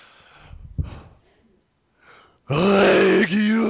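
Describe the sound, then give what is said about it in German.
A voice imitates the cry of the Pokémon Regirock: a loud, harsh, sustained growling roar that dips briefly before carrying on. Quieter breathing and a short grunt come before it. “Regirock, weiß ich gar nicht mehr, wie macht das Ding im Film? Lass einfach krachen.”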